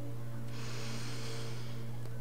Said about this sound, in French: et d'expirer lentement, calmement, simplement, sans forcer. Encore une fois,